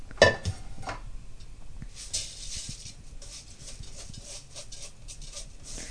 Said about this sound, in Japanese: お米を炊飯器の内釜に入れます。